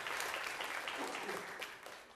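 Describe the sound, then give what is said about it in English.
Applause from a church audience clapping to thank a volunteer, a dense, steady patter of many hands that holds loud for about two seconds and tapers slightly at the end. “Let's give Scott a hand clap.”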